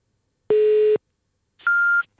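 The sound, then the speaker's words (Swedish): Telephone beeps while placing an early-morning call, old-fashioned in tone: two clear electronic beeps with silence around them, the first lower in pitch and the second higher, each lasting under half a second. “Gud vad den lät gammeldags, det där pipet.”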